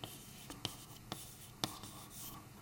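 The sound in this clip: Writing on a board during a physics lecture: faint, quiet scratchy strokes punctuated by a few sharper taps, with no talking.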